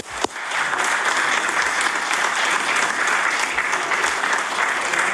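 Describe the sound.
Members of a legislative House applaud to welcome visiting municipal officials, a steady, loud burst of many hands clapping that holds evenly throughout.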